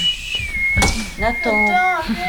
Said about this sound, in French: Non, je soufflais. Je siffle.